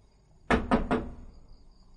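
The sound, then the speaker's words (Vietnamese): A tree branch knocks three times on a temple door, the sharp, loud raps closely and evenly spaced, each with a short hollow decay, and no voices. “Gã khom lưng, đưa tay nhặt một cành cây trên mặt đất, sau đó gõ cửa.”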